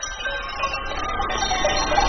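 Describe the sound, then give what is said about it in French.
Bells on a flock of dairy ewes in the mountains of northern Messenia near the village of Kopanaki ring in a continuous, overlapping metallic jangle of sustained tones at a fairly even level. “Là, on est dans les montagnes du nord de la Messénie, près du village de Kopanaki, dans un troupeau de brebis qui fournissent en lait pour faire la feta de Nikos.”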